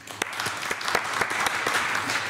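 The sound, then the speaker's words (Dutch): Hearty applause welcoming two jury members at an event. Many hands clap in a dense, continuous wash at a steady level, with a few sharper individual claps cutting through. “Geef ze een hartelijk applaus.”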